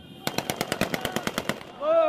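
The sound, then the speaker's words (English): Machine gun fire during urban fighting at a central roundabout in Sirte, aimed at green flag bunting on a lamppost: a rapid, evenly spaced burst of many sharp, loud shots, then a brief lull. “the shooting you hear is them trying to shoot down green flag bunting that's attached to one of the lampposts”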